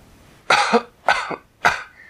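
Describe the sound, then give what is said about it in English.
A sick young girl coughs three times in quick succession. Each cough is a harsh, fairly loud burst that trails off briefly, with short pauses between them. “So the honey helped a little. But she went right back to coughing.”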